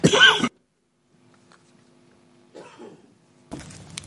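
A loud, harsh cough bursts out at the start. After a pause, softer throat-clearing sounds follow twice.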